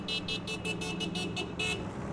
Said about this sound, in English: Teenager Rosie Daniels says quite a few motorists are honking in support of their message